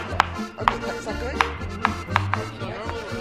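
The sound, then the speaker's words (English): A knife chops fast on a cutting board in a run of sharp, crisp strikes at slightly uneven intervals over a low background hum. “Okay, so I chop like this fast. Yep, you chop like that.”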